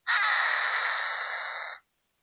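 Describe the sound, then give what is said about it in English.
A hawk, a bird of prey that appeared in New Taipei City, gives a single long, harsh, raspy scream. It is loud and heard alone, holding steady for under two seconds before cutting off. “Have you ever heard a hawk's call?”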